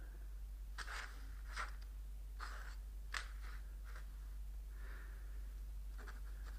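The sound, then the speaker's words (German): A pen scratches across paper while drawing a lily, a series of quiet, short scraping strokes with pauses between them over a low, steady hum. “Heute war die Vorstellung für den König. Ihm zu Ehren zeichne ich die Lilie auf.”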